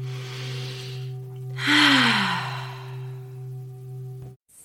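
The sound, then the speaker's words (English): A deep breath drawn in during a guided meditation makes a broad airy rush of about a second, heard over a steady low sustained drone that continues until it cuts off near the end. “Let's all take a breath.”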